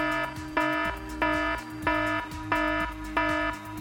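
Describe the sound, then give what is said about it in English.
An electronic ending alarm signals the close of a session, sounding a steady series of short, bright, harmonic-rich tones repeating at an even rhythm, with no talk over it. “well, that was the ending alarm. So I'm so sorry, but we have to end.”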